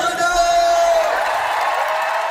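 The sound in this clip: A concert crowd at the Gelredome cheers and whoops in a loud, continuous roar that holds steady throughout.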